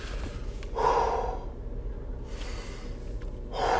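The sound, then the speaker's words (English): A deep breath, with a few long, breathy rushes of air drawn in and let out. Each is a soft, airy hiss that swells and fades, and there is no talk. “Let me take a deep breath.”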